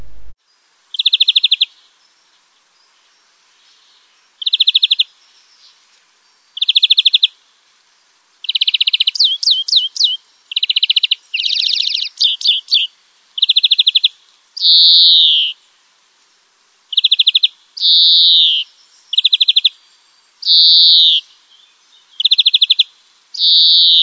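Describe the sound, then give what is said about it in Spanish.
European greenfinch song, many short bursts of bright, high chirps and rapid trills repeated with brief silent gaps between them, clear and loud against a quiet background. “Vamos a ir con el siguiente. Verderón común.”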